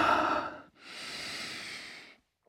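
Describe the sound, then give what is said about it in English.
Deep breathing during a yoga session: two long, audible breaths, the first sharper and louder, the second a steady airy exhale that fades to silence. “Arms, meanwhile, can just relax, undistracting arms. Deep breaths.”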